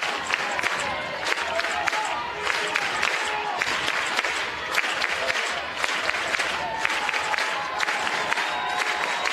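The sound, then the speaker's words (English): Stadium crowd at a softball game cheers and roars continuously, a dense, loud wash of applause and shouting with scattered whistles and claps sustained throughout. “And Patrick Murphy asked for the Bama fans to make even more noise, and they oblige.”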